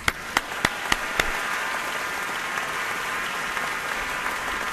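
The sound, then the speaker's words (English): Concert hall audience at the Ordway Center for the Performing Arts applauding, a steady dense wash of clapping with a few sharp, louder claps standing out at the very start. “So without further ado, please join me in welcoming Contus and Imani Wins to the Ordway.”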